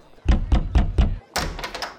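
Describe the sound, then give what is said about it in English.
An inn door being closed: four heavy, evenly spaced thuds, then a brief pause and a rougher, brighter rattling thud. “Sorry, I don't have any room, an innkeeper said as he closed the door.”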